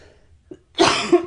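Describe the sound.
A person with a dry throat gives a small catch of breath, then one loud, harsh cough that pushes out in a couple of rough pulses before cutting off.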